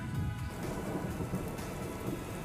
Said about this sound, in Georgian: რომ ნახოთ, როგორ წვიმს, ნამდვილი ტროპიკული წვიმა.